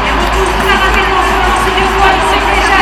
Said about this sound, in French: Et tu vois, tu dois entendre la ferveur du public qui se rapproche.